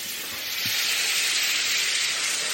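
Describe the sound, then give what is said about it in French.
Pasta cooking water ladled into a sizzling pan: a loud, continuous, steady hiss with no voices. “Pour éviter que ça brûle, on va mettre directement une louche d'eau de cuisson.”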